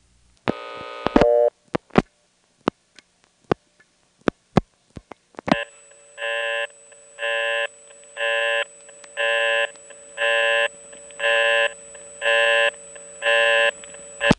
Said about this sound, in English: if you dial 1 plus an invalid code, you get a very distinctive busy signal, which I'm sure will sound familiar.